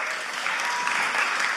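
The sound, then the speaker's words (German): Audience applause at a church sermon: a dense, steady wash of clapping that holds an even level throughout the short stretch, with no voices over it. “come on, Applaus”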